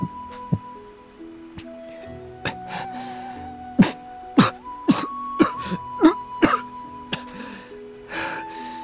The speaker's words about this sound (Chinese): 喉咙干涩发疼，差点没被噎死，他剧烈咳嗽起来